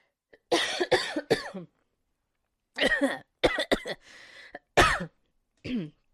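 Coughing from a tickle in the throat, by a person who has allergies: a series of harsh, loud coughs and throat-clearing bursts in several separate clusters, with short silences between them.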